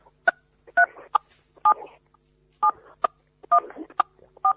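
Dialing tones sound as a phone call connects to a call-in line: a quick, uneven series of short two-tone beeps, some brief and some held longer, over a quiet background.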